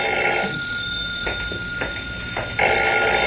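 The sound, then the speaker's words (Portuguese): A telephone rings in a radio drama scene, giving a few short repeated ring bursts over a steady electronic tone. “Pode deixar que eu atendo. Alô?”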